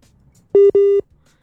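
Two steady telephone tones at the same mid pitch, the first short and the second slightly longer, sound loud and clean against near silence as a phone call drops.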